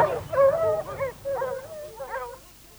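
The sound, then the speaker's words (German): Hunting dogs yip and whine while chasing a wounded wild boar into a thicket. It is a short burst of quick, high, excited yelps and whimpers that fades toward the end. “Das Tier flüchtete sich ins Dickicht, die Hunde hinterher.”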